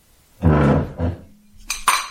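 Dinner plates and cutlery clinking at a table: a few dull clattering knocks and a low scrape, then two bright, sharp clinks close together.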